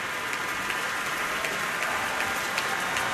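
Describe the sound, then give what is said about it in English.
Faint, rain-like applause from a concert audience at Orchestra Hall in Minneapolis after an orchestral program of film music, a dense, even wash of many hands clapping that holds steady throughout. “Enthusiastic audience here at Orchestra Hall in Minneapolis.”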